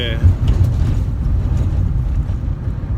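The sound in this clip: Steady low engine and road rumble fill the inside of a car being driven, a continuous dull drone with slight fluctuations throughout.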